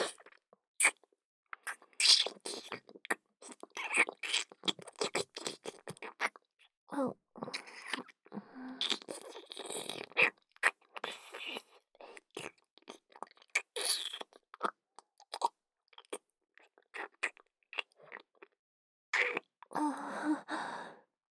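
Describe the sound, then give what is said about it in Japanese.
Wet licking and slurping mouth sounds come in many short, irregular bursts separated by brief pauses, moderately loud and with no talk. “濡れた舌先、たまらん。もっと、もっと激しく舐めさせてもらうぞ。”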